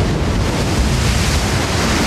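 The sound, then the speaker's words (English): Ocean waves in a storm pounding a sailboat, heard as a loud, continuous roar of churning water and wind noise with no separate crashes standing out. “Another colossal wave crashes down on him. Tangled in the rope, Truman lies face up near the steering wheel and part of the sail. Kristoff stares with a stony expression. A wave knocks the boat on its side.”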